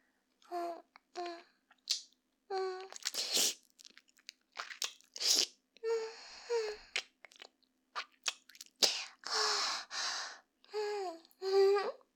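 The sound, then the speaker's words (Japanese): Close-up wet mouth sounds, as if right at the ear: slurping, smacking and soft crunchy bites, with breathy voiced murmurs between them. Many short separate bursts follow one another in quick succession, fairly quiet and with no speech. “こういうですね、チュパチュパした音とかもですね、まるで耳元で聞いているかのようにお届けできちゃうという素晴らしい優れものです。”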